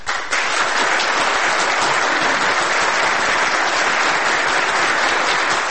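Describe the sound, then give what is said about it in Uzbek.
A theatre audience applauds a staging of Shakespeare's Richard III. After a brief quieter moment, loud, dense clapping holds steady and unbroken to the end. “Richard 3 ni ko'rgan tomoshabinlar va teatr tanqidchilari asosiy obrazni yaratgan Tohir Malikov mahoratini qayta-qayta olqishlashdi.”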